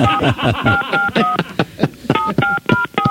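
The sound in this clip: Telephone keypad dialing tones: a quick run of crisp two-pitched beeps, a handful at first, then after a short pause another steady, evenly spaced burst of several more.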